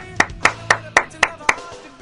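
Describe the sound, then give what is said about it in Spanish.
Six crisp hand claps in an even, steady rhythm, loud and sharp, each one a quick separate snap with short gaps between. “Un aplauso matemático.”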